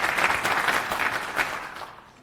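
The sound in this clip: Audience applause welcoming a speaker to a conference talk on open standards. Many hands clap in a steady, even wash that holds level, then tapers off near the end.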